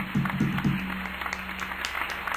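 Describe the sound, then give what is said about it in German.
Audience applause after a host asks for it: dense, steady clapping throughout, with a brief low voice-like sound near the start fading into the clapping. “Und bitte Applaus!”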